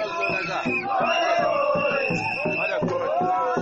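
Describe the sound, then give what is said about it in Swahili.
Football fans cheer and chant at Moi Sports Centre Kasarani after Kariobangi Sharks beat Everton on penalties: a loud, sustained crowd roar with many voices holding sung, shouted tones throughout. “Shangwe, vifijo na nderemo za mashabiki wa soka”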